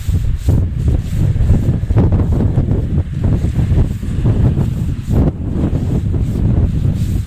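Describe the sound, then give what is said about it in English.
Cold wind blowing outdoors, buffeting the microphone with a steady, loud, low rumble and restless gusty surges throughout, with no voices. “It's not very cold. The wind is cold.”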